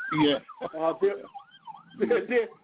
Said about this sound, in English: And I hear the sirens going on in the background